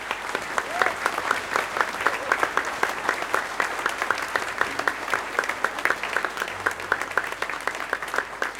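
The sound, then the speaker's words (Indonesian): Audience applause at a church Christmas service after a choir performance: dense, steady clapping from many hands that holds an even loudness throughout. “Sekali lagi tepuk tangan”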